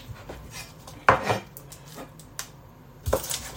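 Knife cutting the tips off garlic cloves on a board: a few sharp clicks and taps, with a crisp cut near the middle and a louder knock at the end, set against quiet kitchen handling.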